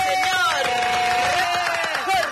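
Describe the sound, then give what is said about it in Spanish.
A studio audience on a Friday TV show cheers and claps to welcome a guest, a busy crowd noise that runs steadily at a moderate level. “Y lo recibimos con un fuerte aplauso al señor”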